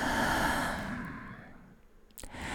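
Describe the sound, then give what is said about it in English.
A slow, soft breath is let out in a long, faint, airy exhale that gradually fades, then a short, sharper intake of breath comes near the end. “Let's just breathe together. In. And out.”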